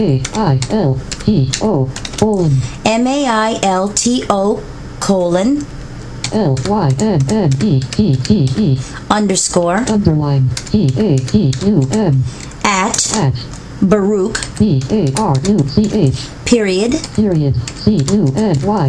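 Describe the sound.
Typing on a computer keyboard to set up an email shortcut: scattered light key clicks underneath a person talking almost continuously.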